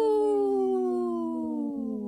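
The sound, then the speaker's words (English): A person howls like a wolf: one long, loud, sustained tone that slowly falls in pitch from start to finish. “Good howl, by the way.”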